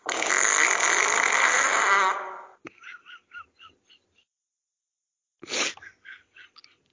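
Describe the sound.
A voice imitates a fart with butt cheeks clapping: a long, loud, noisy raspberry, then a string of short slapping pops. A second, shorter burst is followed by more quick pops.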